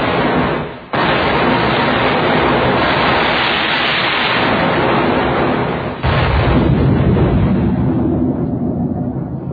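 Ship's cannon fire from a sailing warship aimed at a point of land: a heavy, sustained roar of booming blasts and rumble, loud throughout, with a brief dip early on and a fresh surge later.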